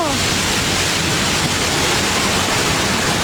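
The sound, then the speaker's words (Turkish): Floodwater rushes through flooded streets in Esenyurt after heavy rain, a loud, steady, roaring wash that continues without a break. “evleri su bastı, araçlar suya gömüldü. Esenyurt'ta karşıya geçmek isteyen bir kadın suya kapıldı.”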